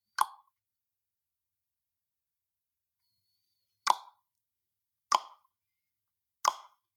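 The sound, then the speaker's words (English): Tongue popping against the roof of the mouth, made as a posture exercise: four sharp, hollow pops, one near the start and three closer together later, each brief and isolated in silence. “a very simple exercise to determine where the tongue position should be is just making the popping sound like this.”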